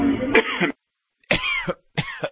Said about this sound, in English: The cough doesn't seem to bother him.